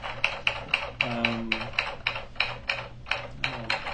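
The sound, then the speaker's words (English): Typing on a computer keyboard: many crisp key clicks in a steady, even rhythm, with a low tonal hum underneath partway through. “You seem like you're typing fine, I guess.”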